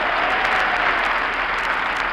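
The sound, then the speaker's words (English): Loud, continuous studio audience applause, a thick, even roar of clapping that stays steady from start to finish with no pauses. “What is that applause?”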